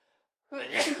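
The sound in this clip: A single loud sneeze bursts out after a moment of near silence: a broad, breathy blast with a sharp onset that lasts about half a second and then stops, with no talking around it.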